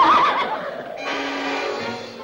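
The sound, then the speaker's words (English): A draft horse standing beside a buggy with big spoked wheels and a leather seat on a street at night lets out a loud, wavering whinny that trails off, with no voices. “the draft horse swings its head toward her”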